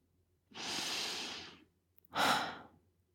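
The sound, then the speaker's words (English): A big, deep breath with no talking: a long, airy breath lasting about a second, then after a short pause a shorter, louder second breath. “Friends, take a big breath.”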